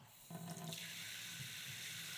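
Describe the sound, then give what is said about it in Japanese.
Hot water runs from a tap while being prepared for washing someone's hair. After a brief opening the flow becomes a steady, soft rushing hiss that continues to the end. “はい、準備ができました。それではまずお湯を出しますね。”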